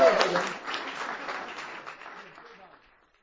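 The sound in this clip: Audience applause welcoming a speaker at a meeting: a dense burst of clapping that starts loud and gradually thins and fades out over about three seconds.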